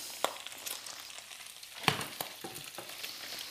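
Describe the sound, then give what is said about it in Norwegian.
Bacon fries in its rendered fat: a continuous soft hiss with scattered crackles and a few sharper pops, fairly quiet and with no talk. “Baconfettet er klart.”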